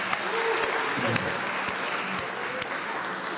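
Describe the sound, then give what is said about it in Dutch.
Applause in church for a couple's 12.5-year wedding anniversary: dense, continuous clapping from the audience at an even loudness throughout. “Dus mag een applausje bij.”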